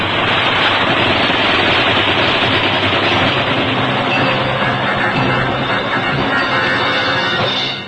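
Enemy gunfire in a wartime battle drama: a dense, steady roar of loud noise with no separate shots standing out, sustained at even loudness from start to end, with no voices.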